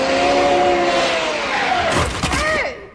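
A taxi car drives up with a loud, steady engine roar whose pitch shifts before it fades out at the end.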